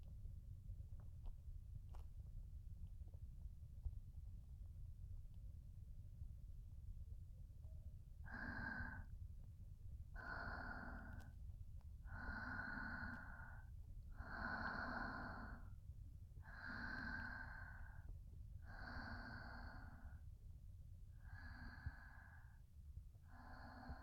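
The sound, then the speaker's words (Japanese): A mother's slow, steady breathing, faint and soft, with several evenly spaced breaths rising over a low, constant background hum. “ママの呼吸の音、落ち着くね。”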